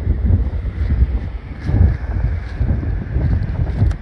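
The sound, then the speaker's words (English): Strong wind blows at a high spot above the waves, buffeting the microphone in a loud, continuous low rumble that rises and falls in gusts, with no voices. “But it's pretty windy up top here today.”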